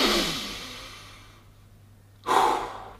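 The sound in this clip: Deep breath taken alone: a long airy rush of air fades out into a near-silent pause, then a sudden louder breath follows near the end.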